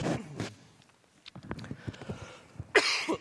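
Throat clearing by someone with something caught in the throat: a few short, rough, faint rasps, the last of them louder and harsher than the others.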